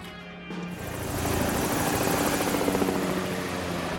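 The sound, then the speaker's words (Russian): Helicopter in flight. A loud, steady rotor roar with a rhythmic chopping pulse builds over the first second, then holds. “Пилот, сколько нам еще? Вертолет летит на место. Скоро будем на месте.”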